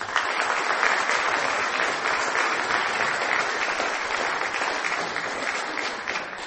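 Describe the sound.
A crowd at a Pepperdine event applauds to welcome a speaker, producing a loud, continuous wash of clapping that holds steady and thins slightly toward the end.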